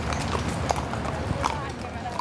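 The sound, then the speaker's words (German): Hooves clip-clop as horses with riders pass through a large park garden, a few sharp hoofbeats over a steady, noisy background with no clear talk. “Immer wieder kommen Reiter mit ihren Pferden vorbei.”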